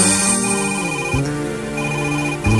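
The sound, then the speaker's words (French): A telephone rings at a radio station with an electronic, musical ringtone: steady, bright sustained tones that shift pitch a couple of times, loud and with no talk over it. “Téléphone sonne”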